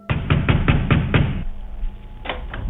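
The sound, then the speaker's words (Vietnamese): Loud banging on a door from outside: a fast run of about six heavy, booming thumps, then a short pause and a couple more blows. “kèm theo đó là tiếng đập cửa rầm rầm”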